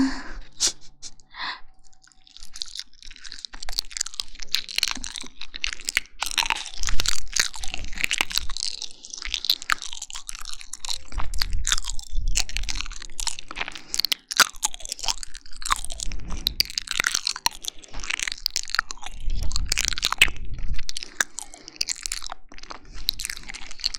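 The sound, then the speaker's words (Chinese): Close, continuous chewing of sticky rice dumplings (zongzi), with wet smacking and frequent crisp crunches, steady and moderately loud with no talking over it. “那我开始吃了。”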